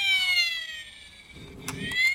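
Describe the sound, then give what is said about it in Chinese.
Fire engine siren on the road: a loud, high electronic wail that glides slowly downward in pitch, followed by a low rumble and a couple of clicks near the end. “消防车呢， 就响这个声音，在路上，”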